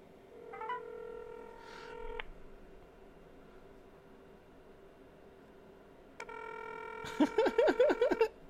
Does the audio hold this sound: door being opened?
no